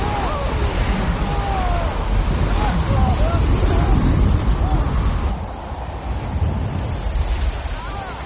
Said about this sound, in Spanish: Les golpea una ráfaga de viento y nieve.